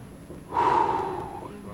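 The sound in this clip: A voice imitates a breath blown into a mouth, as in mouth-to-mouth resuscitation: one long, forceful, breathy exhale of about a second with a faint whistling edge. It is fairly loud, stands alone and trails off softly.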